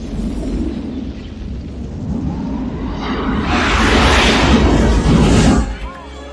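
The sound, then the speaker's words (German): An alien mothership explodes in a film scene: a deep, continuous rumble swells into a loud, broad roaring blast that holds for a couple of seconds, then drops off abruptly near the end. “Das Mutterschiff explodiert.”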